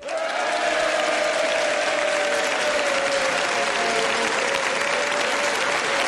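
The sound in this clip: Sustained audience applause at a comedians' panel talk show: a dense, steady wash of clapping that holds at an even level from start to finish, with no voices on top.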